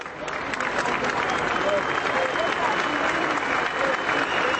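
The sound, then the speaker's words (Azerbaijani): Tens of thousands of people clap as the funeral procession of journalist Hrant Dink passes the newspaper office where he worked: a continuous, dense roar of applause with crowd voices mixed in. “Dink'in cənazəsi işlədiyi qəzetin redaksiyasının yanından keçiriləndə 10 minlərlə adam əl çalıb.”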